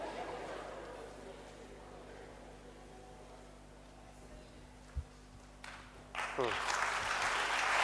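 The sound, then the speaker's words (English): Audience clapping during a talk, a steady wash of claps under a low hum that swells louder near the end, with a brief thump partway through. “I don't know why you are clapping.”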